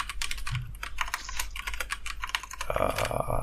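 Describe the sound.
Rapid typing on a computer keyboard while notes are written down: many quick, irregular keystrokes clatter steadily throughout, with a denser burst near the end and no voices.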